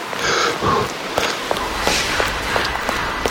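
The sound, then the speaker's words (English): Running footsteps thud in a quick, steady rhythm, about seven footfalls over the last two seconds, over a low rumble, with no talk. “If you're wondering what that is the sound of Darth Maul. He's running.”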